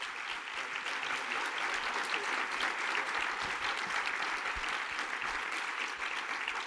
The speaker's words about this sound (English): Hey, could we give Jesus a better hand than that? Come on, let's give Jesus a great hand in the room this morning.